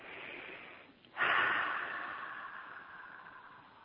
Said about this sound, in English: A couple of deep breaths.